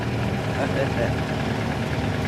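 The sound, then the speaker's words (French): A Cosworth car engine, expected to reach 225 km/h, runs as a steady, rough, low rumble with no clear change across the moment. “ce moteur devrait permettre à la Cosworth d'atteindre les 225 km/h. S'il veut bien démarrer, évidemment.”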